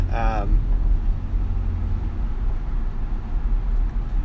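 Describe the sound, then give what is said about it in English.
A car drives on the road, heard from inside during a delivery run: a steady, loud low rumble that holds throughout. A brief voice sounds at the very start. “I am driving around doing some deliveries again today”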